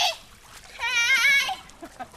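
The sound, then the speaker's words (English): Water splashing in a family's backyard swimming pool as two teenage girls play on a hot, humid day, with splashy bursts and a high, drawn-out girl's voice over the water. “It's hot and humid, so it's a relief for the girls to be able to splash in the family's backyard pool under the watchful eye of two college student aides.”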